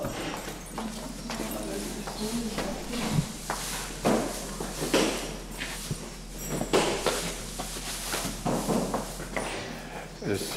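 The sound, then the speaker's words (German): Hooves clop as a zebra walks for the first time in freshly fitted hoof shoes: many irregular hard knocks and scuffs over a steady low hum. “Und jetzt zum ersten Mal laufen mit Schuhen.”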